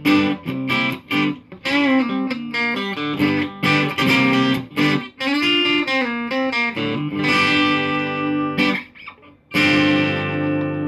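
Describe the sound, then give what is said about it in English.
An electric guitar played on its bridge pickup through an amp rings out with a bright, spanky, Rickenbacker-like tone. Loud, slightly distorted chords and riffs are chopped by short gaps, and a final sustained chord lets ring. “Really has that Rickenbacker sound on that bridge pickup.”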